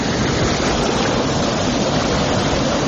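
Loud, constant rushing of water flowing along a river bank, a dense unbroken wash of noise with no pauses or distinct splashes.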